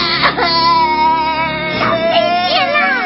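A small child cries loudly in sustained, wavering wails and sobs that rise and fall in pitch, with no clear words.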